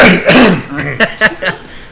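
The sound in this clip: A man clears his throat: a rough, noisy rasp followed by a few short, sharp bursts, loud and alone.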